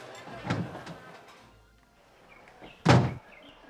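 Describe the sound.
A door is handled as people step outside, giving two dull wooden thunks. The second is louder and sharper, with a faint creak and shuffle between them.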